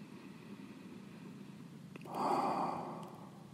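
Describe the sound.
A deep sighing exhale during a breathing exercise: one breathy rush of air swells after a quieter stretch and fades out over about a second, with no talking.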